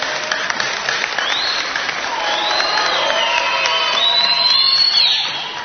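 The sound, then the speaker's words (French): An audience applauds and cheers for itself, a loud, sustained wash of clapping with whoops and shouts that swells toward the end before easing off. “Est-ce que vous pouvez acclamer pour vous-même?”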